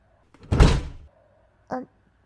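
A door is closed in a room: a soft, muffled thud, then about a second later a brief sharp click, faint and alone.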